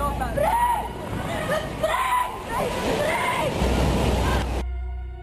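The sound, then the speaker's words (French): A giant wave crashes onto the Indonesian coast in a continuous roaring, splashing surge of water. A speaking voice runs over it throughout, and the rush cuts off near the end as tonal music enters. “Quelques minutes après, une vague géante, haute comme un immeuble, s'abat sur les côtes indonésiennes.”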